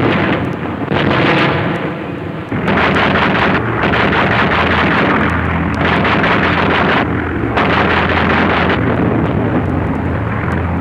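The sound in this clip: Anti-aircraft guns firing at Soviet bombers: a loud, continuous roar of gunfire and blasts with several brief drops in level, harsh and noisy throughout.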